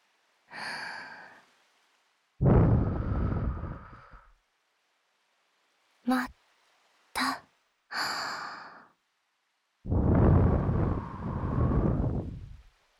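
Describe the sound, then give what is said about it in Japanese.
Soft, breathy blowing of air comes in two long, airy puffs, with a soft voice and faint clicks between them, all quiet against silence. “何するかはわかるよね。ふうするよ。”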